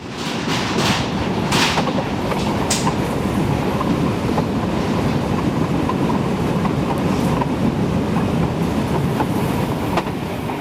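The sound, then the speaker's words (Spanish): Heard from on board, a train runs on rails between Donostia and Zumaia, a steady continuous rumble and rattle throughout, with a few brief higher clicks and squeaks near the start. “Este capítulo comienza a bordo de un tren que nuestra anfitriona conoce muy bien, el que une Donostia con Zumaya.”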